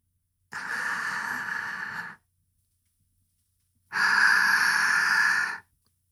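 Deep breaths drawn in and then held. There are two long breaths of steady airy rushing, each about two seconds long, with a silent pause between them.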